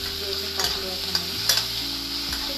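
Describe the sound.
Tomatoes sizzle and fry in a pan while being stirred: a steady hiss runs throughout, with a few short scraping stir sounds.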